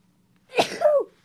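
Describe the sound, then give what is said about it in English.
A single loud sneeze with no other sound around it: a sharp burst that swells, dips briefly, then peaks again before dying away, lasting about half a second. “wait, I'm about to sneeze.”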